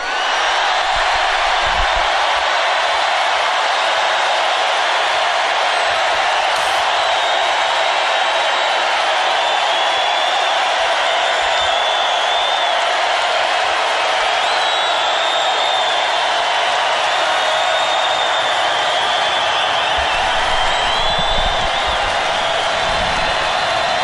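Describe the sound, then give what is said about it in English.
A large presidential rally crowd cheers as it votes by volume on a campaign slogan, a sustained, roaring wall of voices that stays loud and unbroken for the whole stretch. “He's having the audience vote on a slogan. Make America great again or keep America great. Sounds like keep America great is winning.”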